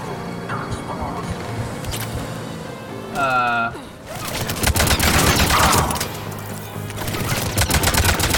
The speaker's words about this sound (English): There's like multiple catwalks and stuff going on. And we can shoot through the floor.